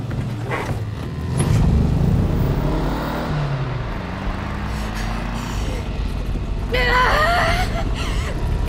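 A car drives along with a continuous engine drone and rumbling road noise, holding a steady level with slight surges and a brief brighter burst of sound near the end.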